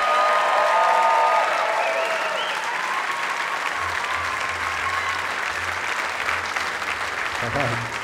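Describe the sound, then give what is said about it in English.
A festival crowd at Newport Folk Festival applauds a performer being welcomed to the stage, with steady, dense clapping that carries on at an even level throughout. “So keep your hands together and give a Newport Folk Festival welcome to Tuck Andrus.”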